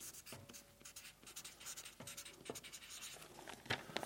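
A pen scratches faintly across paper, producing a run of soft, irregular strokes and scrapes that continue with no talking.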